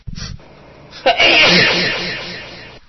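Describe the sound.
A single sneeze follows a short, breathy intake. It starts with a sharp burst and trails off into a hissy exhale over the next couple of seconds.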